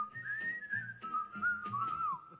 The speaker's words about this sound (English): And I thought, well, let's have these guys whistle. These are two corny guys.